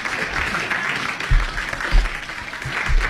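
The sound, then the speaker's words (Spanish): A studio audience applauds with a steady wash of clapping, punctuated by a few heavier low thumps. “Suenan los aplausos de la cantidad de gente que habita este estudio.”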